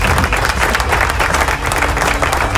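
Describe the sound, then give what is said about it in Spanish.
Applause from a crowd: dense, steady clapping that fills the whole clip at an even, loud level, with no separate claps standing out. “¡Aplauso!”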